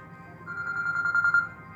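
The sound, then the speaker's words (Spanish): A telephone rings with an incoming call: one brief, fairly faint ringing burst of about a second rises over a low, steady background hum. No voices are heard. “estamos recibiendo otra llamada directamente que nos tumba esta”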